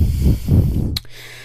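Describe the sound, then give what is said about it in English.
Heavy, rough panting from a person out of breath after running: two loud breaths, then a brief sharp sniff, then near quiet. “I'm out of breath a little bit because I ran.”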